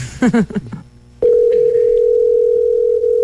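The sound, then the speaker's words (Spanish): Steady telephone dial tone after dialing starts: a single continuous, loud, unbroken hum that runs for about two seconds, following a brief stretch of talk at the start. “Empiezo a marcar, ahí va a sonar.”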